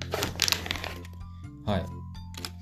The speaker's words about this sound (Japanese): じゃあ、一旦注射針を出しますね。